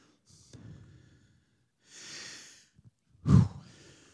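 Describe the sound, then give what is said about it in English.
A preacher breathes heavily to catch his breath, with a few quiet, drawn-out breaths and one sharper snort-like exhale, and no talking. “Catch my breath. I didn't get out of breath with COVID, but I am with preaching.”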